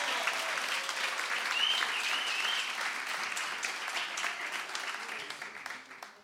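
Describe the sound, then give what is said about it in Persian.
Audience applause greeting performers from Bushehr: dense, continuous clapping that stays loud and even, then thins slightly toward the end. “برای بوشهری ها اینجوری دست میزنن، فهمیدم.”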